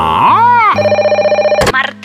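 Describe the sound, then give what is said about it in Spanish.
A telephone rings with an incoming call, a rapid pulsing trill lasting about a second. A voice is heard briefly before it, and a short burst of noise follows. “Pero repentinamente recibe una llamada”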